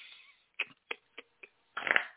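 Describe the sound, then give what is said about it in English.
Tarot cards shuffled as one pops out of the deck: four short, faint snappy flicks, then a denser riffling burst. “A card is popping out the deck for you. So you know what happens when a card jumps out the deck, right?”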